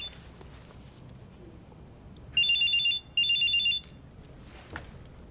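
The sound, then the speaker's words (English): A mobile phone ringtone sounds from inside a handbag: two short bursts of a bright, high electronic trill separated by a brief pause, standing out over a faint background. “She gets her ringing mobile phone out of her handbag.”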